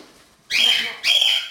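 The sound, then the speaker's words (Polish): Two bright, whistled chirps come from cockatiels in a room kept for seven birds. Each call is short and high, with a quiet pause between them. “Ptaków jest 7, to są wszystkie nimfy.”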